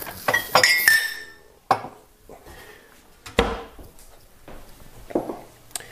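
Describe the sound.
Ceramic mug and kitchenware clinking while AeroPress coffee is made: several sharp clinks and hard knocks at irregular intervals, some bright and ringing, with quiet gaps between and no voices.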